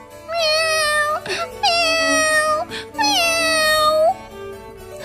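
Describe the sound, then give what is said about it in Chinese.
A kitten cries with three long, high-pitched meows, each drawn out and steady in tone and separated by short pauses, loud and clear with no other sound. “猫宝宝哭得更厉害了。”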